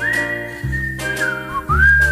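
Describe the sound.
Whistling along to a song: a clear, bright whistled melody sustains long held notes with gliding pitch changes, heard alone over a low steady musical backing that swells in three pulses.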